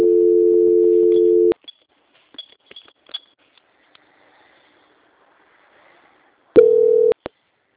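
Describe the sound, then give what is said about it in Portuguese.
Telephone tones during a call transfer while on hold: a steady tone of about a second and a half, a quiet stretch with faint clicks, then a shorter, slightly higher tone and a final click. “Vou transferir seu contato novamente para a central, tá? Tá bom. Só um minutinho, pode ficar em linha. Transferência.”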